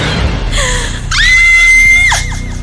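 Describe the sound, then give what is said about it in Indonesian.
A person screaming: a single long, high-pitched scream rises out of a steady, loud background and holds before breaking off abruptly. “Refleks aku pun berteriak. Aku berteriak sambil menutup wajah dengan kedua tanganku”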